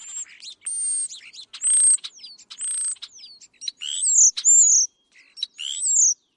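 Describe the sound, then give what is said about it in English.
European starling calling with a varied mix of high whistles, chirps and buzzy rattling notes in short bursts separated by brief pauses, some whistles sliding in pitch. “sounds like the European starling”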